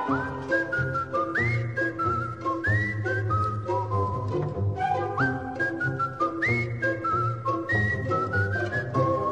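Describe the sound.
A man whistles absent-mindedly while milking a cow on a farm: a continuous, wandering whistled melody with gliding notes that runs through the whole clip at a steady, moderate level.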